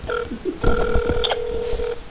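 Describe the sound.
An outgoing phone call to a hotline rings while waiting for an answer. A brief tone burst is followed by a longer, steady buzzing ring lasting over a second, fairly loud against light background noise.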